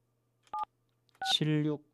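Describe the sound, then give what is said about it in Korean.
Telephone keypad tones as a call is dialed: two short electronic beeps with a pause between them, the second followed at once by a brief voice. “제가 바로 전화를 좀 드릴게요.”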